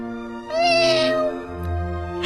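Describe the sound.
A small white kitten with a long tail meowing: a fairly loud, drawn-out mew over steady tonal background sound.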